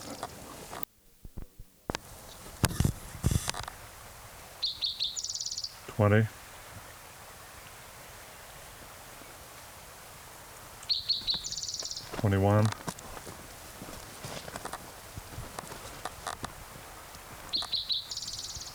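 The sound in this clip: A male bird sings clanging trills in three separate bouts, each a short series of bright, high ringing notes running into a rapid trill, with quiet gaps between bouts over a faint steady hiss.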